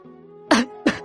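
Two short, dry coughs land a fraction of a second apart as sharp throaty bursts over a faint, steady low tone.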